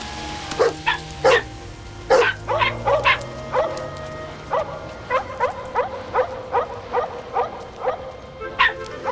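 Dogs bark and yip in many sharp, high bursts that come at an irregular rhythm. Some bursts come in quick pairs, and there are short pauses between the groups.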